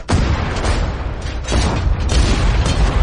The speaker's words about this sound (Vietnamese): Tô Bạch liên tiếp bóp cò súng